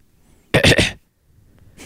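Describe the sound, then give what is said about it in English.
A single loud cough from a sick person, a harsh burst broken into a few quick pulses, with near silence before and after. “That wasn't a laugh because that wasn't a funny joke. That was a cough because I'm sick.”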